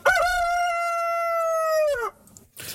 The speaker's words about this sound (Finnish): tässä sitten tämä originaali kukko, että miltä se kuulostaa